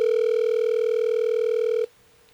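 On an outgoing telephone call, a single steady ringback tone sounds loud and unbroken for nearly two seconds, then cuts off abruptly, leaving faint line noise.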